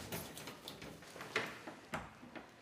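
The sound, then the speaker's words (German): Faint metallic clicks of a key turning in a door lock, a few soft ticks and small snaps spaced across a quiet, low hiss. “So, dann dürfen Sie abschließen und danach kann ich den Rest abschneiden.”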